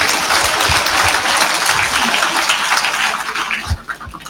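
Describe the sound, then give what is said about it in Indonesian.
Applause fills an Indonesian Independence Day ceremony in Bone regency: dense, steady clapping from a crowd, holding loud and even before thinning out near the end. “Tepuk tangan dulu.”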